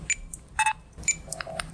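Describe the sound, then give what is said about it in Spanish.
Supermarket checkout beeps: several short, high electronic bleeps come in an irregular run over a faint low background hum. “Este es el sonido de un supermercado.”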